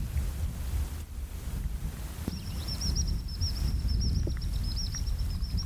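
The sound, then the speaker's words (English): A common sandpiper gives a high, rapid, repeated piping trill that starts partway through and runs for about three seconds, over steady wind and lapping water by a loch. “That's the call of the common sandpiper.”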